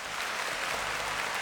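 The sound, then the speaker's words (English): Steady, dense applause for an applause break fills the moment without a pause, a continuous wash of many hands clapping at an even level. “And wait, hold on. One more applause break.”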